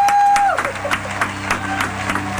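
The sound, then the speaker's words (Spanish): Audience applause fills a live show with steady, dense clapping at an even level. “¡Aplauso!”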